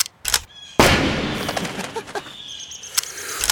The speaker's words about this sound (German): Ich tu doch niemandem weh. Ich schieß doch nur ein bisschen rum.